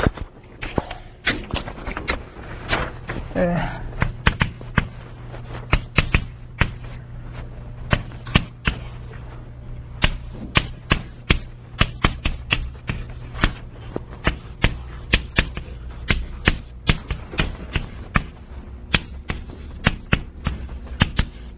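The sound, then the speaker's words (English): Writing sounds as symbols and equations are put down during a physics lecture: a long run of many sharp clicks and taps in an irregular rhythm, mixed with brief scratchy strokes, staying fairly steady throughout with no talking. “Let me write down with the proper symbols and things.”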